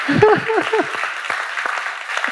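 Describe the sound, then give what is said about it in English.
An audience applauds the fathers present at a Father's Day gathering, with steady clapping throughout. A voice speaks over the first moments of the applause. “How about a big round of applause for our fathers here?”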